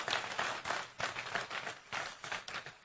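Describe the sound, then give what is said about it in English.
A live audience clapping their hands together, a quiet, uneven patter of many claps that swells and dips in irregular pulses. “I'd just like you to put your hands together for yourselves. Put your hands together for yourselves.”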